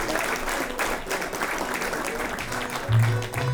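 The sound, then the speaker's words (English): An audience applauds steadily throughout, welcoming a singer from La Follette, Tennessee, onto the stage at a show in Victoria, with a dense, even patter of clapping and no pauses. “Let's give him a great big welcome here in Victoria.”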